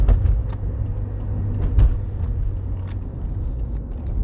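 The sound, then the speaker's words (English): A car on the road gives a heavy, steady low rumble throughout, with a few sharp clicks on top. “This person now has to get out of my life. Get out of my life, car.”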